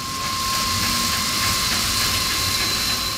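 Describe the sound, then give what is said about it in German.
Steady, harsh hiss of a compact test car-wash rig at a paint factory in Münster, spraying wash water mixed with fine sand onto painted car parts. The even, unbroken spray noise carries a faint steady tone, with no voices. “Was Sie hier hören, ist eine Autowaschanlage der ganz brutalen Art. Denn dem Waschwasser wird extra noch feiner Sand hinzugefügt.”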